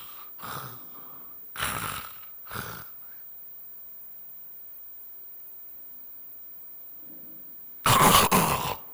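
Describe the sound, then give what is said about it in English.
A voice imitates sleep apnea snoring with stopped breathing: three short snoring snorts, then a long quiet pause with no breath sounds, ending in one loud, harsh burst. “So for those of you who don't know what sleep apnea is, it is when you stop breathing during your sleep.”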